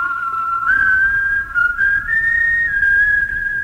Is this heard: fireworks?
no